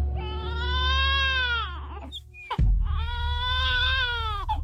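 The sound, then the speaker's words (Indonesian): An infant cries in two long, wavering wails separated by a brief catch of breath, loud and strained, with no talk over them. “kenapa tiba-tiba anak kita menangis?”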